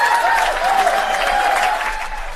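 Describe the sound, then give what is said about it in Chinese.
Warm audience applause greets the members of the YS band as they are welcomed on a show, a dense, sustained patter of many hands clapping at an even level for the whole stretch. “那首先呢，让我们用热烈的掌声来欢迎一下各位乐队成员”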